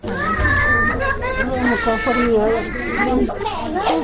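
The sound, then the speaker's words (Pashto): Children crying and wailing in grief at a family home mourning a killing. High, shaky cries overlap loudly and continuously throughout, with other voices mixed in. “دا راپور یې برابر کړی چې د خدای بخښلې د ماشومانو په چیغو پیلېږي”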